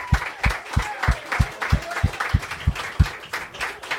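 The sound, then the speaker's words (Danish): Audience applause greeting a hairdresser guest: scattered clapping over a steady, evenly spaced low thumping beat that pulses about three times a second, moderately loud throughout. “Vi er her, giv kæmpe stort til en frisør. Giv ham en hånd.”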